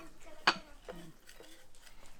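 A spoon stirs a mixture containing citron in a bowl, giving one sharp clink followed by soft, faint scraping.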